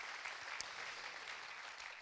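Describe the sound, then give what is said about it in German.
Audience applause at a talk on church leadership: a steady, even wash of many hands clapping. It stays faint and continuous through the whole clip, with no pause. “Nochmal Applaus”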